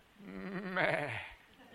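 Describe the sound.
A sheep gives a single soft, wavering bleat lasting under two seconds, with a nasal, vibrato-like tone that swells slightly in the middle before fading.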